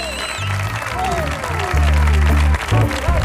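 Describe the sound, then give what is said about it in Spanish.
Studio audience applause and cheering burst out over music, a short, loud wash of clapping with a steady bass line beneath. “Hoy tenemos un publicazo que suena así de potente. Ve cómo suena este público de hoy.”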